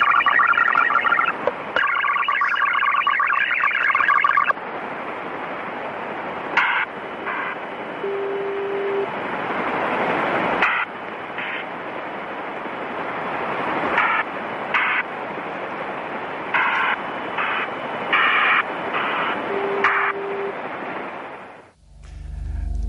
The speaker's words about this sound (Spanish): Está en 3.830 kilohercios, en banda lateral, en USB, y suena así.